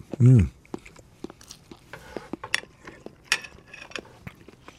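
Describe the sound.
Chewing on a small tasting piece of sausage: a brief voice at the start, then many soft, irregular clicks and crunchy mouth noises that stay faint throughout.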